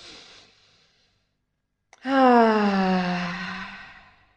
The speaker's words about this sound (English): Breathe in. Let's breathe in 3 times.